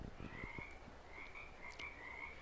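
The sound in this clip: A frog croaks in a repeated series of soft, buzzing, raspy calls. The calls are quiet and sit over a faint steady hiss.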